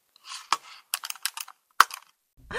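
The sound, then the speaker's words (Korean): A computer mouse clicking while a photo is selected on screen: several sharp, dry clicks, one alone, then a quick cluster, then another single click, with no talk over them. “마우스를 여기다 갖다 놓고 사진을 클릭해서”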